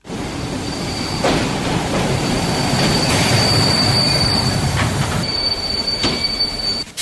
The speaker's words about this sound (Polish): Na wielkopolskie tory powróciły parowozy. Nie było ich przez 3 lata. Teraz będą ciągnęły składy na trasie Wolsztyn, Leszno i z powrotem.